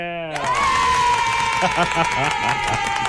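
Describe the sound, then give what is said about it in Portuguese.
A studio production crew applauding and cheering. A dense run of claps starts after a brief voice and continues to the end, with a sustained vocal whoop and talk mixed in. “Tem que aplaudir, produção. Pelo amor de Deus, tem que aplaudir, tem que bater palma de pé”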